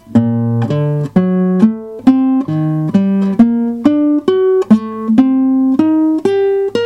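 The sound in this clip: A melodic 1-3-5-7-9 pattern in G harmonic minor, played in 7th position as a steady run of many clear, sustained single notes that climb through repeating groups.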